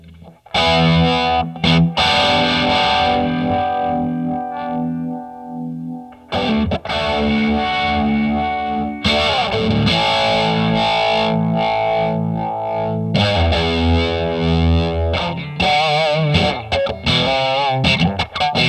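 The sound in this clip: Distorted electric guitar runs through a custom-shop multipedal with Rattler distortion added, giving gritty, saturated chords and sustained notes with a chorus-like shimmer, loud and alone, broken by a few brief pauses.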